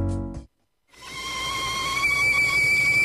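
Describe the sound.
A kettle whistles as water boils for tea, a steady shrill tone over a rushing hiss that swells gradually. A brief tone and a short silence come before it.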